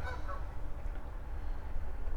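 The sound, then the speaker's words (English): Wild geese honk faintly over a steady low rumbling background, with a few soft nasal calls near the start. “Well, I see a goose chase way out there too. And being as those are wild geese, that is in fact a wild goose chase.”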